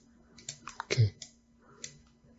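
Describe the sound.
A few short, dry clicks of a computer mouse button, including the middle button, pressed while working in 3D software. The clicks are unevenly spaced and fairly faint over a low steady hum.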